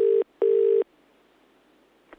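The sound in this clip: A telephone call rings out with a double ring: two steady tone bursts, the second longer, then a quiet line ending in a faint click.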